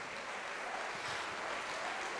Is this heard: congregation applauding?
yes